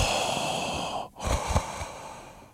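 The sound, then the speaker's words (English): A voice imitating heavy, strange breathing during sex, producing two long, raspy, hissing breaths split by a brief pause, dense and noisy throughout without any words. “She was the person who just had very strange breathing patterns. So when was she that one? She sounded like Darth Vader. All right. I mean, like straight up Vader. I mean, it was just like,”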